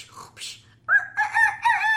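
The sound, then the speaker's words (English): A voice imitates a rooster crowing as a child's wake-up call in a bedtime game: a loud, drawn-out, tonal crow in a few pulsing bursts, preceded by softer vocal sounds. “That's a great rooster noise.”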